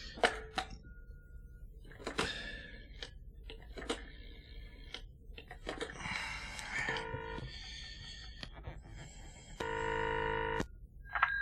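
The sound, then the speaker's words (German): A telephone is dialed, with a series of short, faint key tones separated by pauses. A single steady ringing burst follows near the end, then one brief tone. “Ich rufe Ansgar an.”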